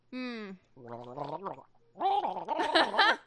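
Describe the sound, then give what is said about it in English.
A person gargles with something in the mouth, imitating a phlegmy voice: a voiced, bubbling rattle in three bursts, the last one longest and loudest. “He sounds just like that, except whatever you had in your mouth just now is lighter than the phlegm that he seems to be gargling”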